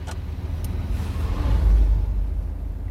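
A car driving, with a continuous low engine and road rumble that swells slightly midway and then settles, with no talking.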